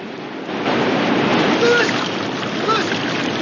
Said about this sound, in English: The remaining metal kayak slides down the waterfall behind him.